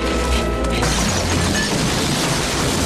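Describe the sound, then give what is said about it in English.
Stalactites crashing down in a cave: a loud, dense roar of smashing and crumbling debris with a deep boom underneath during the first second, then a sustained rumbling crash that continues to the end. “Stalactites keep falling, but they run through unharmed back into the open air.”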